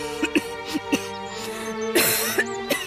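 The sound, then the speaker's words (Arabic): A woman, a mother with a chest complaint, coughing: several short, sharp coughs over a steady tonal background. “ما سبب السعال؟ يجب أن يراك الطبيب.”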